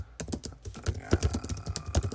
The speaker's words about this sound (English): Let me see, I'm going to type something in right now.